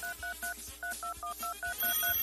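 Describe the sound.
Electronic telephone tones on an incoming call line: about ten short, evenly spaced two-tone beeps in a rapid, regular pattern, clear and moderately loud.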